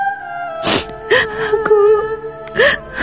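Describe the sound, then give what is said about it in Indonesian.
Sudden crying from a person: whimpering, wailing cries with rising pitch glides, heard over sustained steady tones. “Rukma Karti, ada apa? Mengapa kau tiba-tiba menangis?”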